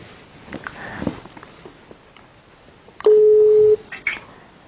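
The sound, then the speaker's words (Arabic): Dialing a telephone call produces one loud, steady electronic tone lasting under a second. Soft rustling and sniffing come before it, and a faint short blip follows. “انا بكلمه دلوقتي تاني. تمام ان شاء الله هيرد علي على طول. ها هتيجي. انا بكلمك تاني”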